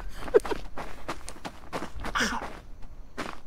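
Quick footsteps of a character running in a horror video game, many light thuds in a brisk, fairly even rhythm at moderate loudness.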